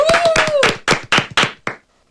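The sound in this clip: Sharp hand claps greeting a guest arriving in a studio. A handful of distinct, loud slaps come at an uneven, slowing pace, then stop abruptly, leaving near silence.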